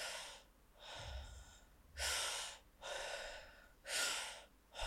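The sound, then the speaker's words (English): Breathing in and out through the nose during a breathwork exercise, a steady rhythm of airy, snorting breaths. Each breath is a distinct burst separated by brief gaps, and some breaths are louder than others. “Last five breaths. Start to bring the breath back through your nose.”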